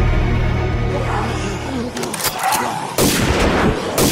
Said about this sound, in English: Quick, shoot out that window!